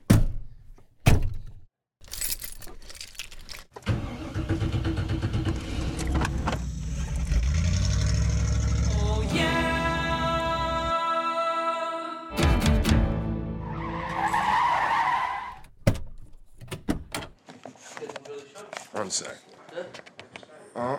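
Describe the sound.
A car's engine rumbles and its tires skid, broken by thuds and abrupt cuts, while people talk over and between the driving sounds.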